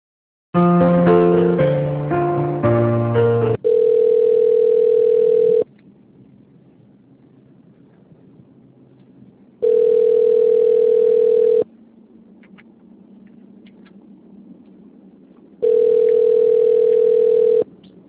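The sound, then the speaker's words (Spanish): Telephone line tones follow a dropped call. A short sequence of beeping musical notes comes first, then three separate two-second bursts of one steady tone. Each pause between the bursts is about four seconds and carries a low hum. “I was just talking to Vasquez, I believe. And the phone dropped.”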